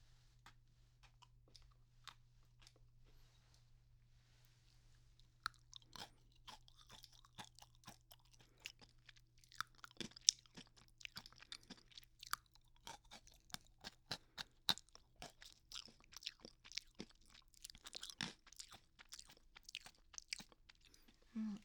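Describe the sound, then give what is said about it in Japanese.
Crunching and chewing as packaged food is eaten: many crisp, irregular bites and chews over a steady low hum, with no talk. “では美味しそうですね。食べていきたいと思います。”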